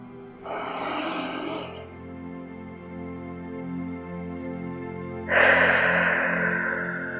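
Two long, deep breaths, each a breathy rushing burst of about a second and a half, separated by a quiet gap, over a steady low tone.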